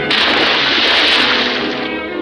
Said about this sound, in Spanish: ¡Los cañones! Desde el barco disparan el cañón.